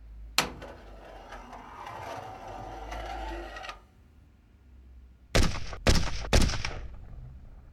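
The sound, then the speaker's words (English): Gunshots in a video game: one sharp report opens a stretch of busy, noisy rumble. After a quieter pause come three loud, sharp shots in quick, even succession. “Move aside. Let me show you how to shoot.”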